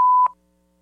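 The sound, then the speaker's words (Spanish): A voicemail beep sounds as one short, clear, mid-pitched tone, followed by near silence. “Hola, ¿cómo estás? Deja tu mensaje después del tono.”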